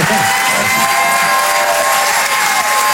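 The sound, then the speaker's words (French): Applause and cheering from a comedy club audience for a comedian: a thick, unbroken wash of crowd noise at constant loudness throughout. “Merci de t'applaudir.”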